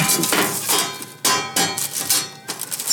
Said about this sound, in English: A metal dish. Makes a nice sound.